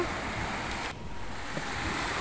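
Sea waves at a beach on a sunny day, a continuous broad rushing wash of surf with gentle swells in loudness. No voices.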